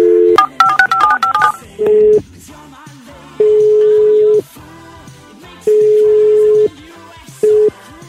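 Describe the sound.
Rapid touch-tone dialing beeps as a prank call is placed, a quick run of many short tones, then several long, steady ringing tones with pauses between them.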